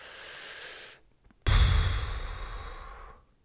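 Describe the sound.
A person demonstrating a calming breath: a soft, breathy exhale, a short pause with faint small sounds, then a louder, longer breath that starts abruptly and tapers off over nearly two seconds.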